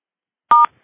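A conference phone line emits a short electronic tone as callers are unmuted: a single brief, loud steady beep of blended pitches, heard alone without talk.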